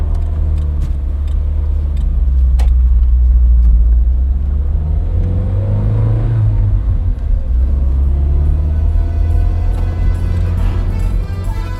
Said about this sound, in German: Wir fahren zurück zu Nummer 48.